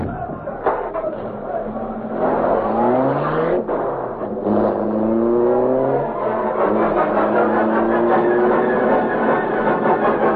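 A car drives off and accelerates, its engine loud throughout and climbing in pitch in several repeated rising sweeps as it speeds up.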